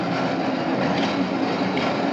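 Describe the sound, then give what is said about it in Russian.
A tram departs, its loud, steady rumbling rail noise filling the whole stretch as one continuous roar without breaks. “Трамвай уезжает.”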